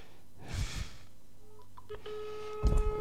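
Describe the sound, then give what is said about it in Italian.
Keypad tones as a telephone number is dialed to call the Italian Senate: a few short tones, then a longer steady tone, with brief rustling bursts of handling noise before and after. “Allora chiamo il Senato della Repubblica e vediamo se qualcuno mi risponde.”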